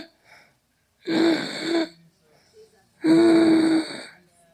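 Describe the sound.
A voice imitates the labored, grunting breathing of a patient in an ICU: two long, loud, strained wheezing groans, separated by quiet gaps with faint breaths.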